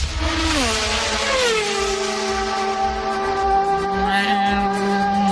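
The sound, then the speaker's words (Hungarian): A Formula 1 race car sweeps past on a straight, its loud high-pitched engine wail dropping sharply in pitch early on, then holding a sustained buzzing tone, with a second lower engine note joining near the end. “Na jó, Forma 1-ezünk? Igen. Persze, volt már hang. Nem, most lesz a hang, figyelj, hallgass.”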